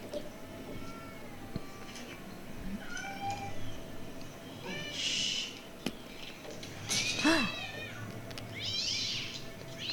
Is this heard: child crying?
no

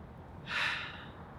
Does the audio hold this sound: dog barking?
no

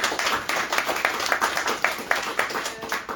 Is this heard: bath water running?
no

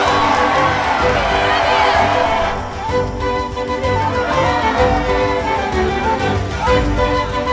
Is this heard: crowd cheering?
yes

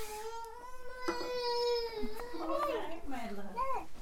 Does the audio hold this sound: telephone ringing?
no

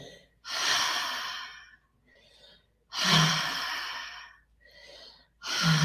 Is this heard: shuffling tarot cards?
no

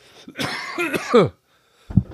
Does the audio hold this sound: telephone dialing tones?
no

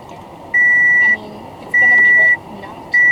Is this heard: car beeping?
yes

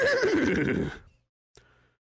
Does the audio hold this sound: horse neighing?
yes

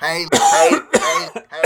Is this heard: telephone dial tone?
no

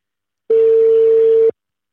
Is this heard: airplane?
no

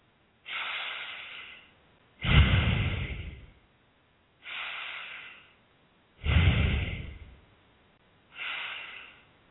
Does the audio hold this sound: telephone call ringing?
no

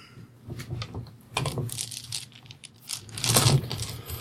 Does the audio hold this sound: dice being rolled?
yes

